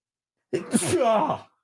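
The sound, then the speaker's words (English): A single human sneeze, heard alone: a quick intake of breath, then a sharp, noisy burst and a short voiced tail that fades out. “I have to sneeze.”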